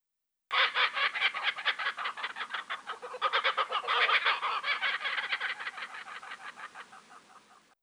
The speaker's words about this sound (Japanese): あそこに鳥がいますよ。あの鳥の声ですよ。 面白い鳥だな。